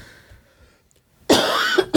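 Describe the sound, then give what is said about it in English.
A loud, raspy cough from someone fighting a head cold. It breaks in abruptly after near silence as a harsh burst, followed by a short second hack at the end. “Sorry, guys. I've got a lot of coughs.”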